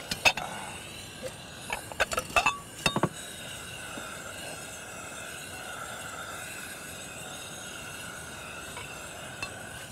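A few light clinks of plates and dishes being set on a table for a breakfast of bread and orange juice, scattered through the first three seconds, then a soft steady background hum.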